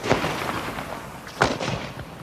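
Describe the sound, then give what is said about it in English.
Artillery batteries open fire on the Māori fort at Gate Pā as British guns begin their bombardment: two sharp, booming blasts stand out among a few weaker, muffled reports over a steady rumbling background. “At 7:30, the general officer commanding gave orders to open fire from the batteries.”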